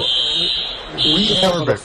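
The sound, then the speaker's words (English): Fire alarm going off with a loud, steady, high-pitched electronic tone that continues under people talking. “Fire alarm.”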